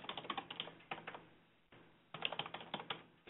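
Keys clatter as someone types on a computer keyboard, quiet rapid keystrokes in a few short bursts separated by brief pauses.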